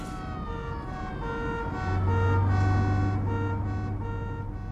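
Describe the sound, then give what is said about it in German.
An ambulance siren comes up behind a moving car, its two alternating tones repeating steadily and growing louder midway over a low engine hum. “da kommt ein Krankenwagen hinter uns”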